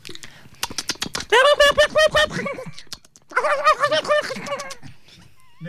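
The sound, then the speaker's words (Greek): A human voice imitates the call of a brown hare with a few quick clicks, then two bouts of rapid, rhythmic, nasal yelping notes separated by a short pause. “Ο καφέ λαγός είναι ο πιο επικίνδυνος από τους άλλους δύο και ο ήχος του είναι ο πιο περίεργος. Ο καφέ λαγός κάνει κάπως έτσι.”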